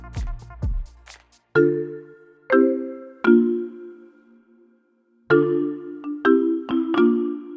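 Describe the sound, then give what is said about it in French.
A telephone rings through a handset while a number is being called, heard as a series of short electronic tone bursts in two groups, separated by a brief gap. “Je compose son numéro.”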